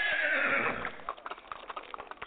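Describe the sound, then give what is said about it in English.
A horse whinnies loudly at the start, a long, bright cry that fades, followed by a rapid series of hollow clip-clop hoof beats. “Put the horse up.”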